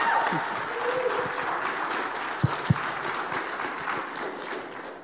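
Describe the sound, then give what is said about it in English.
A church audience applauds to welcome a guest at a Sunday morning service: steady, dense clapping that lasts throughout, with a couple of sharper individual claps standing out midway. “So would you join me in giving Jared a warm welcome to Trinity this morning?”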